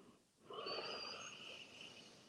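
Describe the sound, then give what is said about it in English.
Breathwork for grounding produces one long, soft, airy breath that swells after a short quiet moment and then slowly tapers. It is faint overall, with no talking. “Take an inhale and then exhale.”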